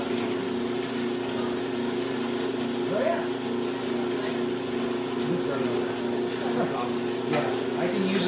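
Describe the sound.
A motorised grain mill grinds grain slowly enough not to heat it, giving a steady, unbroken motor hum with a constant tonal whine that holds at an even level throughout.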